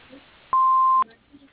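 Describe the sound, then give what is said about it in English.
Answering machine beep: a single steady mid-high electronic tone lasting about half a second, loud and clean, with near silence before and after. “Please leave a message after the beep, and we'll get back to you as soon as possible.”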